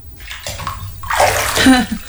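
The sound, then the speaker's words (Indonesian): Water sloshing and splashing in a bathtub of heated water as someone bathes: irregular swishes and gurgles that grow fuller and louder toward the end. “Sekarang ibu masuk ke dalam bak itu dan mandi ya.”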